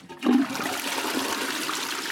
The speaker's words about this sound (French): Le flotteur, il s'abaisse, l'eau, elle évacue, et puis, ça remonte.